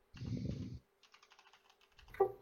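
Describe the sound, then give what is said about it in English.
Typing on a computer keyboard: a dense, clattering burst of keystrokes, then a quieter run of many separate, evenly spaced key taps. “Okay, so let me type. I gotta type up a thing here to Harry.”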